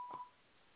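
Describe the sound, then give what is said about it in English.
A censor bleep from a beep button: one short, faint, steady electronic tone, over in a fraction of a second. “You got your own damn button, beep button and shit?”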